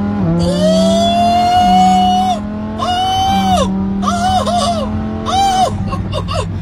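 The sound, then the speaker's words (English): Lamborghini sports car engine while driving, first holding a long, steady, loud drone, then rising and falling through several short revving bursts as the throttle is worked. No talk is heard over the engine. “I'm driving a Lambo today.”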